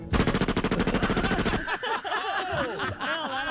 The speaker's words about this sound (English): Wow, where'd you get that? Little Uzi breaking up a little something, something, taking care of business.